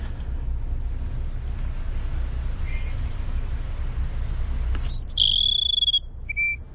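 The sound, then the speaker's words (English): Cassin's Sparrow song in brushy open country: a short buzzy note opens into a clear, sustained high whistle, then one brief closing note, over a constant low rumble and faint high ticking. “you might get lucky and hear a Cassin Sparrow sing. Let's listen to him one more time if we could.”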